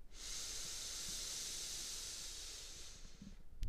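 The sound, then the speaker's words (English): A single long exhale through the mouth during a breathing exercise: a steady, airy hiss that holds evenly for about three seconds and then stops. “Exhale through our mouth. Inhale through our nose.”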